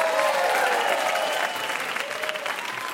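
Applause from a quiz show audience for a contestant who just lost a close round; brisk, dense clapping carries on evenly, easing slightly in level toward the end.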